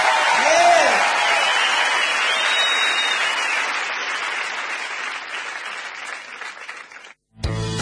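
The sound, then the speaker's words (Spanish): Audience applause: dense clapping that starts loud and slowly thins and fades, then ends abruptly just before the close. “Um aplauso para Miguel Hughes.”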